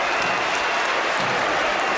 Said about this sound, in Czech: Ve Finep aréně, jak se nově tedy jmenuje, tento fotbalový stánek se tleskalo